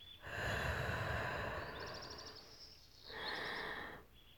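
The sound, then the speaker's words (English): Slow, deep breathing in and out: one long, airy breath lasting about two seconds, then a pause and a second, shorter breath, both soft and breathy. “Breathe with me. Breathe in. And out.”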